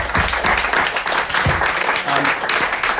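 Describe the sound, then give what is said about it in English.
A live audience at a coffee shop show applauds with dense, steady clapping throughout, with a few voices mixed into the clapping. “So thanks very much, everyone. I think you deserve a round of applause.”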